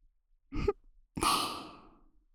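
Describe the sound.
Air blown softly into the ear, with a short puff followed by a longer, airy blow that trails off gently, heard alone without talk.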